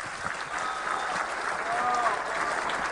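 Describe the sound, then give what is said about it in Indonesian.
Audience applause rolls on as dense, steady clapping at an even, moderate level, with no pauses throughout. “Kita tepuk tangan untuk Pak Joko”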